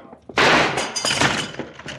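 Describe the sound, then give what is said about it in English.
A sharp, loud blast as a gunshot is fired to shoot off the lock of a locked door. A rough, crashing, splintering clatter follows at once and carries on for over a second. “Stand back away from the door, Senorita. I'll shoot off the lock.”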